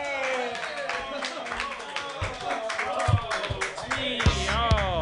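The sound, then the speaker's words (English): An audience claps and cheers for a comedian at a joke workshop show, with dense, continuous clapping mixed with raised voices. “Put your hands together, everybody, for Ian Levy.”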